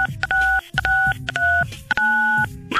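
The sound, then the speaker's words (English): Telephone keypad dialing tones: a quick series of loud two-pitch electronic beeps as keys are pressed, the tones varying in pitch and length with brief gaps between them. “Okay, what do I do? Okay, dial 92 MONEY.”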